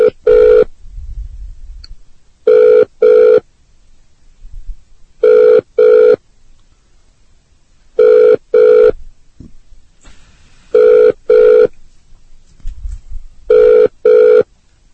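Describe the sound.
A telephone rings on a call back after a hang-up. Six loud double-burst rings repeat at an even pace, with quiet gaps between each pair.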